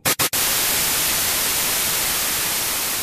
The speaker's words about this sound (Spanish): Un ruido blanco se hace notar en el ambiente.